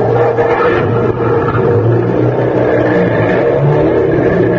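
A car engine revs hard with its wheels skidding and digging into mud, a loud, steady, rough rumble that holds without a break for the whole stretch, with no voices over it.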